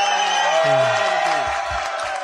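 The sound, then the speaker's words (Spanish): Audience cheering and clapping in a Spanish-language studio chat after a guest says he supports Real Oviedo, a steady dense roar of crowd noise with a few whoops rising above it, loud and even throughout. “Sí, un aplauso, ¡vamos!”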